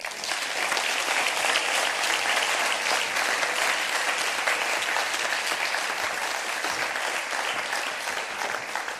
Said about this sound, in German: Begrüßt mit einem herzlichen Andreas-Gemeindeapplaus Klaus Bache.